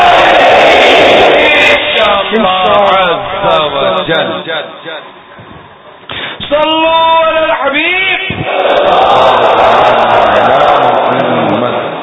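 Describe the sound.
A crowd at a religious gathering chants slogans in loud, dense unison, with roaring voices that drop away briefly while a single voice speaks before the massed chant surges back.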